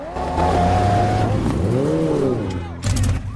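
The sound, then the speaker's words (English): Cars laden with students sweep through the gates into a housing development under construction with unlaid roads, followed by a motorbike; engines rev and surge with shifting pitch, and a second burst of engine noise comes near the end. “Cars laden with students sweep inside, followed by a motorbike.”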